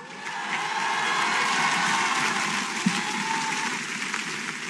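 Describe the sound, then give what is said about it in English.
An audience gives a standing ovation after a line in a Harvard commencement address by President Alan Garber to the class of 2025, with dense, steady applause that swells slightly and holds throughout. “the audience gave him a standing ovation for that line”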